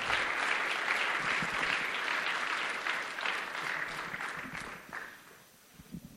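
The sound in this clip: A church audience stands and applauds to welcome a guest speaker: dense, steady clapping that holds for about five seconds before thinning out and fading.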